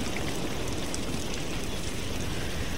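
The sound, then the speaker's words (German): Rain falling as a steady, even hiss of dense drops, unbroken and with no voices. “Oh, es regnet.”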